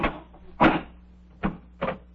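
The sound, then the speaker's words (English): An airtight door being opened gives off a few mechanical clunks: a loud, full thud early on, followed by two shorter, sharper knocks, all over a faint steady low hum with no voices. “See the door? Airtight. Airtight, yes, indeed. I'll open it.”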